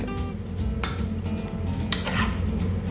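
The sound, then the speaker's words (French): Truffade being served onto a plate: a utensil scrapes and clinks against the dishes, with a few sharp clatters over a low, steady background hum. “Donc on va la dresser. Donc alors on va en mettre, montrer une partie sur assiette.”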